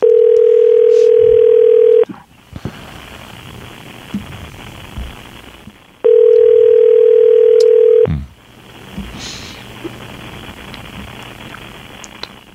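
A telephone tone sounds while a call is being placed: two long, steady, even tones of about two seconds each, separated by a pause of several seconds, over faint background hiss.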